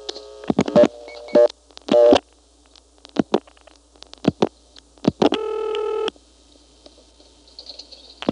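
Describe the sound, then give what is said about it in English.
Telephone number being dialed on an older exchange: a series of short tone bursts and clicks in an irregular pattern, with one longer steady tone near the end, over a faint low hum. “Here's dialing 2241.”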